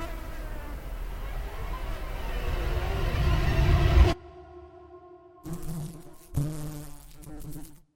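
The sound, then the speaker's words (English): Flies buzz inside a locked bedroom, a soft, dense drone that grows a little louder over about four seconds, then drops away and returns as a few shorter, fainter bursts of buzzing. “And inside, there's something moving. Something making a soft, slight sound. Flies.”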